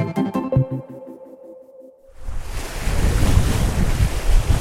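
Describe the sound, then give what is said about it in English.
Ocean waves about four feet high crash against the side of an expedition boat on the Barents Sea. A brief tonal opening gives way to a loud, rushing gush of water and wind that swells and keeps roaring to the end. “This is the sound of the Barents Sea, about 200 miles north of Siberia. You can hear the gush of waves about 4 feet high, crashing onto the side of an expedition boat.”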